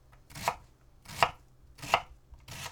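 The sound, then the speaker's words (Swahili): A knife chops food into 5 mm cubes with four crisp, evenly spaced strikes, each a short bright thud, heard alone with no talking. “Kigeuze ili kikuangalie kiupande na uanze pembeni kukikatakata huku kikiachana kwa nafasi ya milimita 5 ili kutengeneza vipande vya mchi mraba ulio na milimita 5.”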